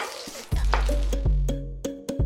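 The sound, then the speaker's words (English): Mustard and cumin seeds spluttering in a tablespoon of hot oil in a pan: a few sharp, scattered pops with a brief metallic ring over a faint background sizzle. “we are going to take 1 tablespoon of oil in a pan. And we are going to add 1 teaspoon of each of mustard seeds and cumin seeds. We will let the seeds splutter.”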